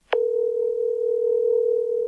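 Ringback tone of an outgoing telephone call: after a faint click, one steady, low electronic tone holds at an even level for about two seconds, with no voices.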